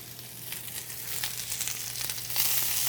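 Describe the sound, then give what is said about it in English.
Sizzling of thinly sliced yellow onion and jalapeno frying in melted butter in a hot cast iron skillet, a steady dense crackling hiss that grows slightly louder toward the end, with no voices. “I've got a nice hot cast iron skillet, and I'm going to melt some butter in here. And then I have a yellow onion that I've sliced nice and thin, as well as a jalapeno, also sliced nice and thin.”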